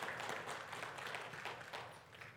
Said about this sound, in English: Come on, bless the Lord with a hand clap of praise.